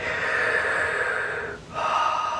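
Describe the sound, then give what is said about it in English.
A slow, deep breath heard alone: a long, steady, airy rush of breathing that briefly dips near the end, then continues. “Deep breath.”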